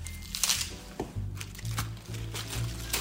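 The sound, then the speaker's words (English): Romaine lettuce leaves being torn apart by hand give a few crisp, crackling rips of moderate loudness over a low, steady hum. “with my hands, because I kind of like the look of that better than a perfectly square cut piece of romaine. So tear them”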